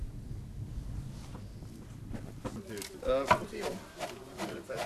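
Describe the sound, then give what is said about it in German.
A flax brake crushing woody flax stems: a few dry, cracking thuds come at an irregular pace, mostly in the second half, fairly quiet over a low rumble. “In der Flachsbreche werden die holzigen Stängel anschließend zerkleinert.”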